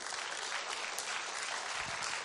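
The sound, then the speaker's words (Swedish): Applause from an audience, cheering on the fathers present, as a dense, steady wash of clapping that holds at an even level for its full length. “En applåd till dem.”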